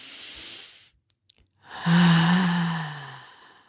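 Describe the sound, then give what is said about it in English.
A deep breath: a soft breath in, a short quiet pause with a couple of faint clicks, then a longer, louder, breathy exhale that fades out slowly. No one speaks. “So take a deep breath.”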